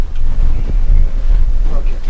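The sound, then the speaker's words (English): Microphones being moved around during a recording produce loud, low rumbling and thumping handling noise, a steady buffeting roar that lasts about two seconds. “we're going to move mics around because something's not working here.”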